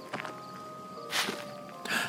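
A few faint rustling footsteps in the woods, thought to be a deer, spaced unevenly over a steady low background.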